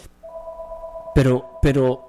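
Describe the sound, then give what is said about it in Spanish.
A telephone ringing with an incoming call: steady electronic tones hold on, then two short, louder bursts follow near the end. “Pero la persona que nos está llamando, disculpe, ya en la hora de la predicación no tomamos llamaditas”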